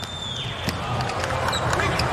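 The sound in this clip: A volleyball serve by Mujanović in a match against Slovenia, heard as a sharp ball strike cutting through a loud, steady wash of crowd noise, with another hit near the end.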